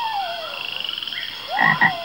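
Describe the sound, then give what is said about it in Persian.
Cartoon stomach-rumbling effect for a little frog: a rapid pulsing, burbling trill followed by two short croaky gurgles, fairly loud and with no voices. “این صدای شکم قورباغه کوچولو بود.”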